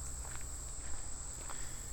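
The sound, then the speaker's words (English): Footsteps walking toward a wall blind by a billabong, soft, quiet and irregular, over a steady high-pitched drone of chirping crickets. “we're going to pause in our story here for a second to walk into the wall blind”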